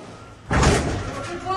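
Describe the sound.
Heavy door slam during a police raid, one loud sudden thud followed by a noisy, rumbling tail.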